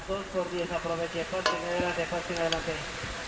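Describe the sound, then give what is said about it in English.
Oil and butter sizzle as they melt together in a pan before onions go in for onion soup, a steady crackling hiss with scraping stirring sounds mixed through. “I'm going to put in about a tablespoon of cooking oil and about 2 tablespoons of butter.”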